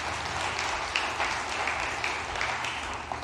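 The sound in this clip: Applause from a church audience welcoming a guest pastor, a steady, dense wash of clapping that holds an even level throughout without voices.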